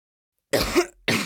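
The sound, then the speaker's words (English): A person with a sore throat coughs: two short, rough bursts. The first is slightly longer and has a throaty rasp; the second starts just before the end. Otherwise there is silence. “coughs and looks at the doctor in a sad way.”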